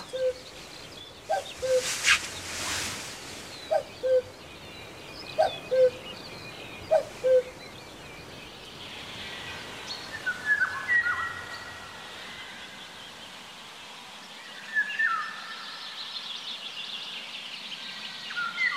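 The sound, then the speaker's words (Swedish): A rare Eurasian golden oriole calls outside a studio at dawn, giving several short, faint, mellow whistled notes at intervals, then a few brighter warbling phrases over a steady soft hiss. “Då hände det som vi har väntat på i 5 år. Fågeln som vi har drömt om men aldrig trodde att den skulle höras.”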